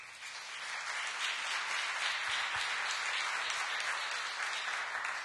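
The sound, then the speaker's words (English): Church audience applauds to welcome a speaker, a dense, steady wash of many hands clapping that swells slightly at the start and then holds evenly for the whole stretch. “Let's give him a hand.”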